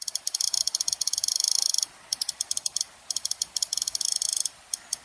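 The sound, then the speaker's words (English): Someone scrolls the click wheel of an iPod, producing rapid, crisp, high-pitched ticking clicks. The clicks come in quick bursts separated by short pauses and are heard alone, without any voices. “That's the sound of someone scrolling the click wheel of an iPod.”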